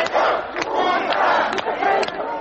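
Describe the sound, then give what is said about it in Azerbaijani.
Thousands of Muscovites massed around the parliament against the August coup shout together as a roaring crowd, loud, continuous, rising and falling cries with sharp accents. “Avqustun 20-sində minlərlə maskvalı insan izdihamı parlament ətrafında sipər yaradaraq çevrilişə qarşı durur. Onlar qələbə bizimdir deyə qışqırırlar.”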